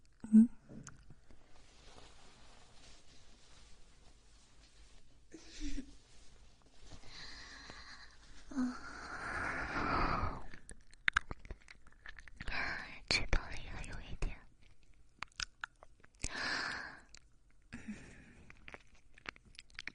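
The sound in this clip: Someone chews and eats food with soft, wet mouth sounds, occasional crunches and sniffs, and close whispering around the bites. The level swells and drops unevenly.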